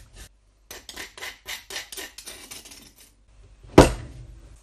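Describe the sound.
Cardamom seeds drop into a glass bottle of orange peel and gentian root for homemade bitters. Many quick, gritty rattles follow one another, then a sharper, louder clink near the end.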